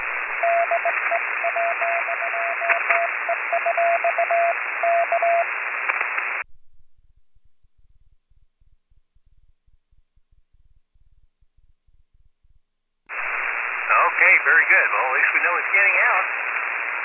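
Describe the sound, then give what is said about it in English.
Morse code letters tapped out on a bug key over ham radio: a steady mid-pitched tone beeps in a run of short and long keyed elements over radio hiss, then the channel goes quiet before a voice comes in. “Let me just send you just a couple of letters here on the key, or make sure everything is working on at least on the bug.”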